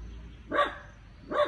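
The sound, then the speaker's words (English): A female pet dog barks twice, each bark short and sharp, evenly spaced and fairly quiet, with no other sounds around them. “She's only barking. She's a dog. She's supposed to bark.”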